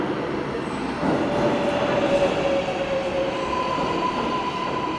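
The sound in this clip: A New York subway train arrives with a dense, steady rumble of rolling wagons. Thin, high wheel squeals drift above it, one stretching long through the middle.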